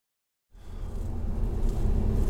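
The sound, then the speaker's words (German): A steady, low road rumble of a car driving into the town of Zittau in Saxony. It starts after a brief silence and then holds an even, droning hum throughout. “Wir fahren jetzt gerade nach Zittau rein.”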